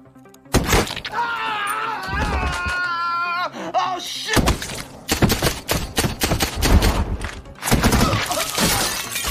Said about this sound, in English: He shoots both soldiers, grabs a handgun and glances out the window, grimacing as the last soldier fetches a huge bipod-mounted machine gun from an SUV and starts raking the house with bullets.